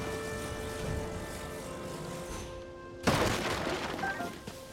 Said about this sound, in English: There's two more boxes here, and I'm definitely gonna smash them all.